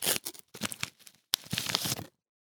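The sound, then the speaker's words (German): Packaging is unwrapped in a few bursts of crisp crinkling and tearing, with a short pause before a last sharp rip and rustle, then silence. “So, erstmal hier ein bisschen auspacken.”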